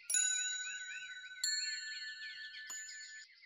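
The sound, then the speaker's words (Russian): A small bell with a cracked tone jingles at dawn, struck three times at even intervals; each strike rings out brightly and the shimmering tones linger between strikes. “И вдруг услышали звяканье колокольчика.”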